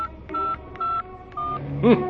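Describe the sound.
Touch-tone keypad beeps sound as a number is dialed on a mobile phone: a few short, evenly spaced tones, fairly faint and without speech.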